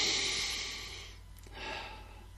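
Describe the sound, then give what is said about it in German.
Two slow, deep breaths are drawn calmly, part of a three-breath calming exercise. They are soft, airy, and breathy, with a long first breath, a brief pause, and then a second swell. “Erstens, atme dreimal ganz tief in Ruhe durch.”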